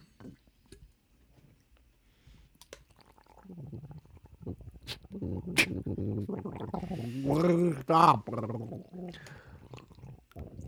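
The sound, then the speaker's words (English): Someone gargling: faint wet gurgles build into a louder, warbling, bubbling stretch midway, then trail off again. “He's sitting there gargling.”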